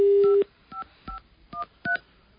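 A telephone number dialed on a touch-tone keypad while trying to get through to busy phone lines: a steady tone, then four short, evenly spaced keypad beeps, clear and alone.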